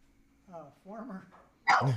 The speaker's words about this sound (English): I thought for a minute my dog had snuck onto the set. If he followed me here, he's smarter than I thought.